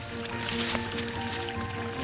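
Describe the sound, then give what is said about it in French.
A small trickle of mountain water in the Hautes-Alpes gives off a soft, continuous babble and hiss. It stays quiet and even throughout, with no voices. “Voilà, ce petit filet d'eau vous est offert par Christian Couloumi, par les Hautes-Alpes, par le soleil, par cette montagne que l'on aime raconter.”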